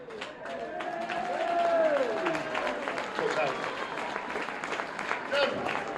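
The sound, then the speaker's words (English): Round of applause for a longtime behind-the-scenes club worker, many hands clapping in a steady patter that swells slightly, with people talking over it. “we just have a massive round of applause for John England.”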